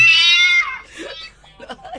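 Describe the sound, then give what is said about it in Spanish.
A cat meows in the room with one high, drawn-out cry that slides downward in pitch, followed by a person talking. “Dejaron entrar a un gato.”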